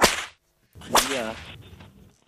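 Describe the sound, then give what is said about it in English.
Two sharp whip cracks, each a loud snap with a quickly fading tail, separated by a brief silence. “Yeah. Right. That's a whip.”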